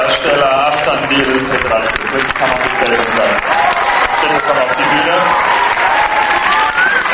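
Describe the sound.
Loud crowd cheering and applause erupt in a 2000-seat cinema hall at the end of a film screening at the Berlin film festival. Sustained, dense clapping is mixed with shouting voices throughout.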